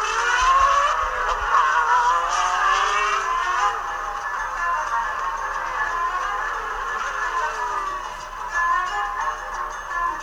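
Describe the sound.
Formula One race cars start the Brazilian Grand Prix with Ayrton Senna, a dense, high-pitched engine whine held loud and steady throughout, with no voices.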